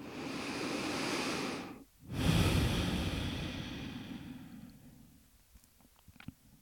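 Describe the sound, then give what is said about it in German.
Deep, slow breathing during a guided meditation focused on the heart: long, airy rushes of breath split by a short pause, then trailing off quieter with a few faint clicks and no talking. “Du kannst auch eine Hand auf dein Herz legen, wenn du magst, und nimm drei tiefe Atemzüge hier in den Herzraum.”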